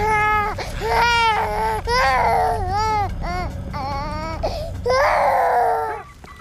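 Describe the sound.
An infant cries in loud, repeated wailing bursts, each with a rising and falling pitch and short breaks between them. The crying stands alone and fades at the end.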